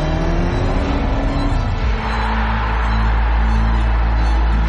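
An Audi car engine revs in a loud, steady, throaty roar that holds for several seconds. The drone shifts tone partway through, with no voices over it.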